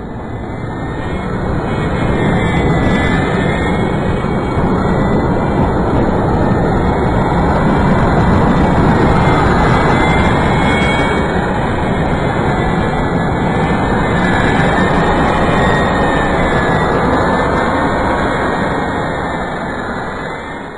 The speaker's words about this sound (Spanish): Y el sonido que produce un avión jet al despegar